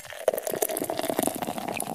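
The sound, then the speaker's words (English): Funky Buddha beer is poured as a continuous bubbling, gurgling splash of liquid, moderately loud and lasting about two seconds. “Should we pour one for old Hank Goldberg? Yes. There we go.”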